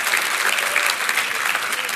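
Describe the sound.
Steady applause from the Northwood Church audience welcoming guests, a dense, even patter of many hands clapping throughout.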